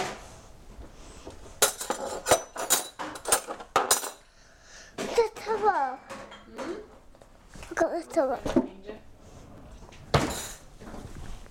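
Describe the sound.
Spoons and other cutlery clink as they are put away, a run of sharp metallic clicks and rattles in quick bursts, with voices talking between the clatters.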